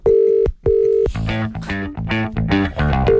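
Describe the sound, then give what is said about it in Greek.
Ringing tone of an outgoing telephone call that goes unanswered. Two steady mid-pitched tone pulses sound, then a stretch of other harmonic sound, and the tone returns at the end. “Ποια Ελένη καλέ παίρνουμε?”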